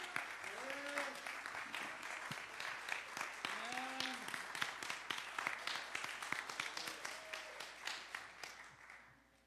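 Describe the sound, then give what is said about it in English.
Church audience applauds with steady hand clapping as a pastor is welcomed to the front during a morning service. Dense claps run for about nine seconds, with raised voices and cheers rising over them before the clapping thins out. “So give God a strong hand clap as we invite Pastor Jose De Leon here.”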